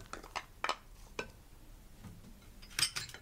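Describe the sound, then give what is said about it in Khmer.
Hard vegetables being tossed and mixed together in a bowl give a few sharp clinks and scrapes, spaced irregularly, with a denser clatter near the end and quiet gaps between. “រួចយើងច្របល់បន្លែចូលគ្នាគឺយើងច្របល់បន្លែរឹងៗចូលគ្នាសិន”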